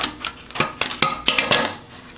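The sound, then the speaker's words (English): Product packaging is cut open in a rapid, irregular series of sharp snips, crackles and clicks of varying loudness. “All right, let's see if I can cut this packaging without destroying it.”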